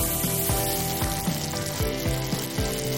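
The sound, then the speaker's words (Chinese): Pork kidney sizzles loudly as it is stir-fried in a wok with dried chili peppers that were first dry-fried. The hiss is steady, with regular scraping and tossing strokes about every half second and no voices. “先把这个樟树港辣椒干煸一下，水分往外煸一煸，有一点点焦糊感。加入这个腰花，”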